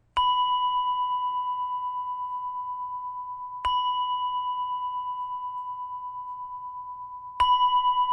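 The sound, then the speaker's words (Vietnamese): Three evenly spaced strikes on a village shrine bell. Each is a bright, clear ding that rings out in a long, steady, slowly fading tone, with nothing else heard. “3 tiếng chuông này không phải chuông của chùa. Chuông này là chuông của miễu,”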